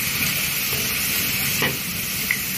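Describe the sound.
Food toasting in a dry pan with no oil, giving a steady, even sizzling hiss with faint crackle throughout and no voices.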